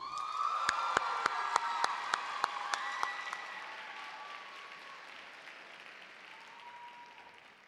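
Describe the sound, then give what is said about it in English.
Audience applause and cheering for a poet at a scored poetry competition: sustained clapping with several sharp, loud claps standing out over the first three seconds, then a gradual fade to a soft patter. “Applaud the poet.”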